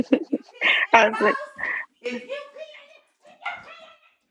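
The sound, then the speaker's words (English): Dog barking and whimpering in a string of quiet, choppy yips and high whines, broken by short pauses. “And let me let the dog out real quick.”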